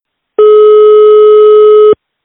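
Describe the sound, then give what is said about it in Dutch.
A steady, loud ringback tone sounds on an outgoing telephone call. It is a single unbroken beep of about a second and a half at one even pitch, heard alone with no voices. “We gaan hem bellen.”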